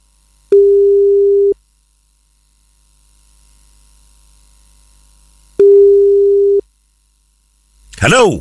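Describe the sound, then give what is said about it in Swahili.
A telephone ringing on the line: two long, steady, low-pitched ring tones, each about a second, separated by a pause of several seconds, with a voice starting at the very end. “Simu yake ndo inaitana. Shika simu wewe sasa.”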